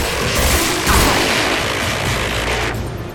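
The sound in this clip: Gunfire and explosive bursts ring out as enemy humanoid mechs are shot down and destroyed in a video game, a loud, dense, continuous roar of blasts with no clear breaks between them.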